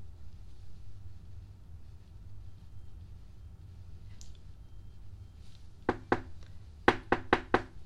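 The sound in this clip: Knocking on a door: after several seconds of faint low hum, two sharp raps sound, then a quick run of four more, crisp and clearly louder than the background.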